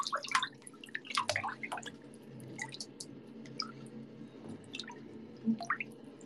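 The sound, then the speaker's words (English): Water drips in scattered, irregular drops, some coming in quick clusters and others spaced apart, faint and with no voices. “It is water. This is water.”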